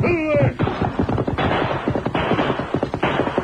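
Gunfire as a gang shoots in a canyon: a loud, dense barrage of sharp cracks and bangs that overlap with little pause.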